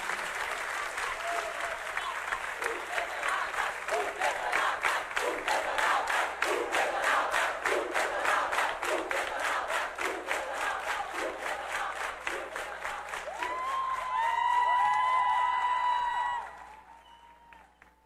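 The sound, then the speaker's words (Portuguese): Audience applause at a live music show, a long, steady roar of many clapping hands that builds with whistles and cheers near the end before dying away abruptly in the final seconds. “Muito obrigado, palmas pra vocês, aê!”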